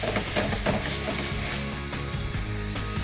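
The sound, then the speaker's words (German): Steady, dense sizzle as white wine hits a hot pan to deglaze it, with pepper, allspice and juniper in the pan. The hiss stays loud and even throughout, with a few soft clinks like stirring beneath it. “So, und jetzt habe ich hier Weißwein. So, und jetzt lösche ich immer so ein bisschen ab hier.”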